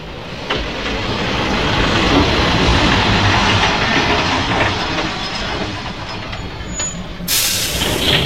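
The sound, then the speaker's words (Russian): A train pulls up at a platform at night with a steady, loud rumble and faint rhythmic clacking throughout, then a sharp high hiss of air bursts out near the end. “Ночь. Поезд останавливается около платформы.”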